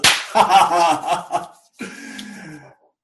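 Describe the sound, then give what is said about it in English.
A sharp hand clap at a talk-show microphone, followed by chuckling laughter and a voice, with a short pause before more voiced sound. “I'm sorry for the clap.”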